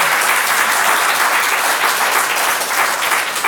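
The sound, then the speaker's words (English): Audience applause at a live book fair event fills the whole clip: dense, steady clapping from a large crowd, loud and even throughout without pause. “You know what I want to do is have the audience applaud these two excellent authors real quickly.”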